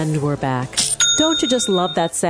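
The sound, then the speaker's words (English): A bright, bell-like notification chime for a new sale on an online store platform rings once and sustains briefly while a voice talks before and over it. “It's the sound of a new sale on Shopify”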